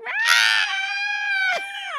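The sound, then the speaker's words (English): A woman's piercing scream of distress on being startled, one long high-pitched cry rich in harmonics that briefly breaks partway through, then resumes and trails off. “you always did this scream. Ah. Yeah, because that's my mental distress scream”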